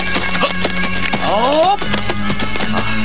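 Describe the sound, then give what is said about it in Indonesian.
Cavalry horses pass by with many hoofbeats clip-clopping in a steady rhythm, and one horse neighs loudly midway. “Sepertinya ada beberapa pasukan berkuda akan melewati tempat ini.”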